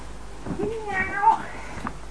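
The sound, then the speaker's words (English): A cat gives a single drawn-out meow that rises and then falls in pitch. The call is fairly faint against a quiet background. “That was the cat.”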